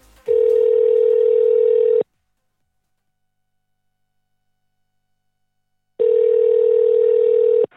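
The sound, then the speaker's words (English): An international telephone line tone gives two long, steady, loud beeps of about two seconds each, separated by a long stretch of silence. “International dialing tone, here we come.”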